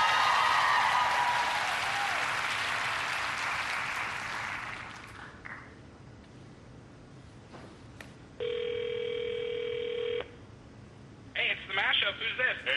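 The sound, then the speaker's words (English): A telephone call being placed, opening with crowd applause that fades out, followed by quiet ticks, then a single steady ring tone that stops, after which a voice comes on the line. “I don't want to disappoint his mother, so I'm going to call them up and surprise them right now.”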